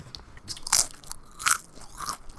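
Crunching on potato chips: a few loud, crisp crackling bites stand out against a steady background of softer crunches and rustles. No voices.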